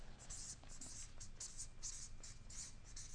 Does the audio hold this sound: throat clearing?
no